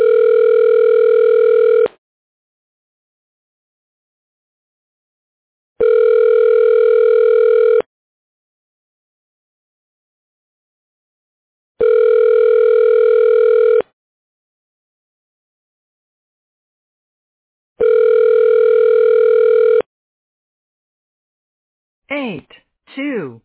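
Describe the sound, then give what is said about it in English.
Telephone ringback tone plays while a call is transferred to a hospital CAT scan room: four long, steady electronic tone bursts at even intervals with silent gaps between them, then a brief recorded voice fragment at the very end. “I could transfer you to somebody in the CAT scan room. Hold on one sec. Okay. Your call is being transferred.”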